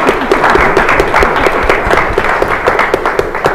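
An audience applauds to thank the panelists at the close of a discussion, with loud, dense clapping that holds steady from start to finish.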